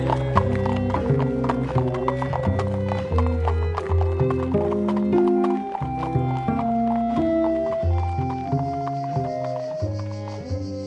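Horse hooves clip-clop in a steady, even rhythm over continuous tonal music that plays throughout, the clicks staying fairly loud and regular for the whole stretch.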